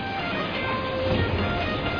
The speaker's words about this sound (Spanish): ¡Apura, que nos deje el tren!